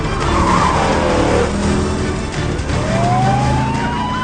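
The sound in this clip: A Mercedes van accelerates hard, its tires squealing over a loud, continuous engine roar. A high squeal tone rises in pitch toward the end, and no one speaks.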